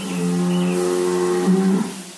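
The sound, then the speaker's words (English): Cattle mooing in an Indonesian feedlot that holds live cattle imported from Australia: a long, low, drawn-out moo with a strong harmonic tone, loud and alone, ending with a brief rougher swell. “In good times, feedlots like this one import hundreds of thousands of live cattle every year from Australia.”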